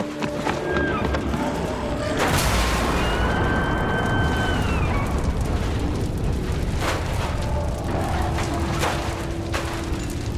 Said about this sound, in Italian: L'esplosione distrusse la casa.